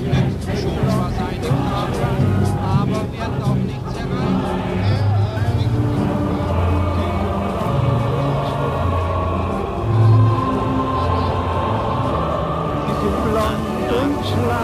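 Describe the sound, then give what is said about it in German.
Heavy city street traffic, with cars crowding the roadway four abreast, makes a dense, continuous rumble of engines and passing vehicles that stays loud and steady throughout. “Ungeheurer Eindruck, nicht der Straße, sondern des Riesenverkehrs. Die Wagen in der Fahrbahn zu vieren nebeneinander.”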